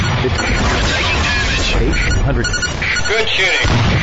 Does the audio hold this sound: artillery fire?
yes